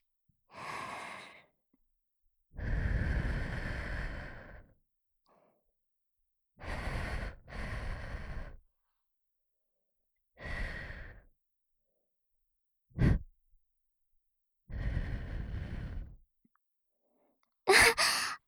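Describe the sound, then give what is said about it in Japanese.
Gentle ASMR blowing into the listener's ear: a series of soft, breathy whooshes, each a drawn-out puff of air separated by quiet pauses. One puff is very short, and no voice is heard. “まずはお耳の中をフーフーしていきますわ。少しくすぐったいかもしれませんが、あんまり動いちゃダメですのよ。”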